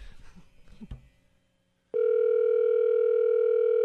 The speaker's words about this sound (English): Well, it's ringing. It's ringing.